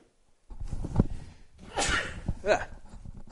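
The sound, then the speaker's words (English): A sudden sneeze from a radio host, a sharp breathy burst set among soft mouth and breath noises, with faint throat sounds before and after. “What do you do when you have to sneeze on the radio? I guess I could have hit mute, but I came on too quickly.”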